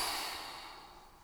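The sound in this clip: A deep, slow exhale during a guided relaxation exercise: a soft, airy hiss of breath that begins fairly strong and fades steadily over about a second.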